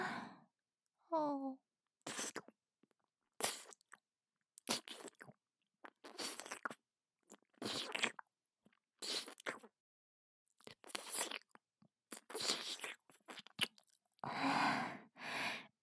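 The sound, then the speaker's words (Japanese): Wet licking and mouth sounds as lotion is licked off an earlobe, many short moist bursts in an irregular rhythm separated by pauses, with a brief voiced breath near the start. “耳たぶについたローション、きれいに舐めとってあげるね。”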